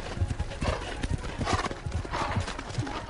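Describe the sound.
Horse hooves clip-clopping at a fast, steady gallop for a folk-tale chase, a rhythmic run of sharp thuds throughout, with a brief horse whinny rising over the hoofbeats.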